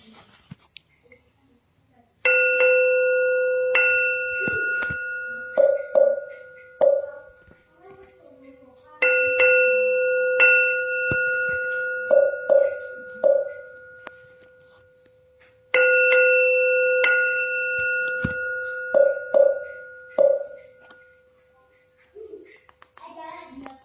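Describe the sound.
Bell ringing: three repeated cycles, each opening with a loud struck tone that rings on and sustains, followed by several quicker, softer strikes before the next cycle begins.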